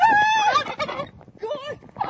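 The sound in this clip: A turkey gobbling: a loud, rattling, warbling gobble at the start, then a brief pause and a shorter, softer gobble call.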